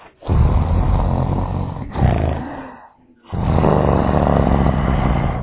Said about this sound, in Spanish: No sabía que los leones hacen buenas almohadas para la persona, ¿no? Me encanta. Además, a veces no duermo bien porque hay mucho silencio en mi casa, pero con ellos ha sido muy fácil dormir porque suenan así.